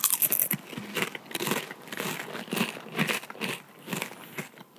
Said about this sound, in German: Jetzt hört ihr einfach zwei Leute, die einen Chip essen.